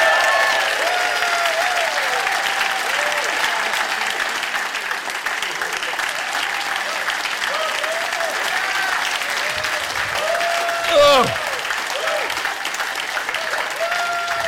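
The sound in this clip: Audience applause welcoming Peter Mandelson: dense, steady clapping holds at an even level for about fourteen seconds, with some voices audible underneath.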